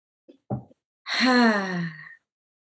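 A long, deep voiced exhale during a guided breathing meditation, lasting about a second with a moan-like tone that slides slightly down in pitch, preceded by a few brief soft breath sounds.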